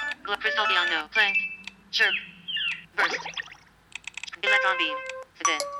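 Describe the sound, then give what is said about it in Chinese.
A phone ringtone preview plays after being selected in the settings menu: short bursts of bright, melodic electronic tones with chirping, warbling notes, repeating in phrases with brief gaps. “我们选中之后直接点击它，我们的铃声就设置成功了。我们来试一下，现在我选择一个”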